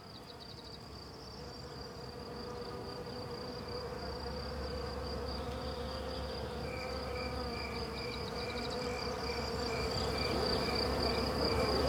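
Steady humming drone of swarming wild bees, a dense insect buzz that holds on without a break and grows slightly louder toward the end.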